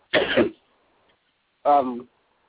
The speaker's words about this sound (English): let me give you a chance to get you a little quick drink of water and clear your throat